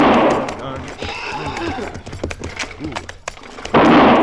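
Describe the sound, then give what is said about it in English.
Rifle shots fired beside spooked horses pulling a wagon: two loud, abrupt blasts at the start and end, with frantic neighing, clattering hooves and raised voices in between. “Stop firing that rifle.”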